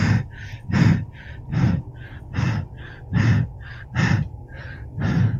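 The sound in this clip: Deep, heavy human breathing in a slow, regular rhythm, with about six strong breath surges and softer breaths between them, loud and close with no talk.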